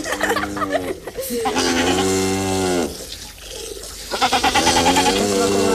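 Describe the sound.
A goat bleats in a few long, loud, wavering cries with strong harmonic tones, separated by brief rougher pauses.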